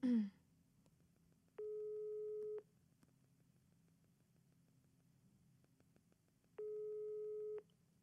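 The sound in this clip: Unanswered telephone call: two long ringback tones of about a second each sound roughly five seconds apart, with faint line hiss between them and a brief noise at the very start.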